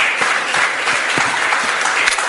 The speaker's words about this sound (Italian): facciamo un applauso al dottor Labriola.